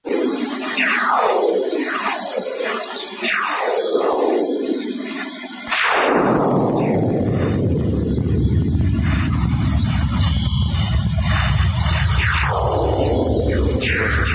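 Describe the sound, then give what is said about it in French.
Radio bursts from the Sun turned into sound produce many descending whistling sweeps, then one loud swooping burst that falls into a long, rumbling roar, with further falling whistles returning near the end. “ce qu'on vient d'entendre, c'est en fait une transcription audio de ce qu'on appelle des sursauts radio de notre étoile”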